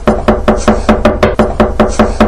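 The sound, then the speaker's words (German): A seagull's beak knocking against a window pane: many quick, evenly spaced hard taps in a steady rhythm, loud and with no voices. “klopft mit dem Schnabel gegen die Scheibe”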